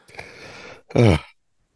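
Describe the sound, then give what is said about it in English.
A single throat clearing: a rough, breathy rasp lasting most of a second, then a short, louder voiced burst, followed by silence. “cleared the throat”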